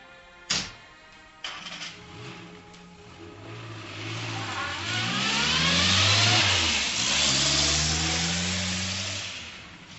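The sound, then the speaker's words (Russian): A car engine accelerates on a highway after a couple of brief knocks. The mid-pitched drone revs upward, dips once as if shifting, then climbs again, staying loud and steady to the end. “Выехав на трассу, Дима придавил на газ посильнее”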